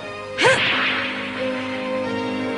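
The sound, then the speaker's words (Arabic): A football being kicked in a weak shot in the Captain Majed cartoon: one sharp thump followed by a long, sustained whooshing rush, over a steady tonal background. “ماجد، هذه تسديدة ضعيفة.”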